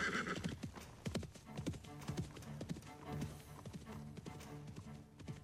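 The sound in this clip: Donkey hooves clip-clop in a quick, steady rhythm. Many sharp hoof strikes follow one another closely throughout, fairly faint overall.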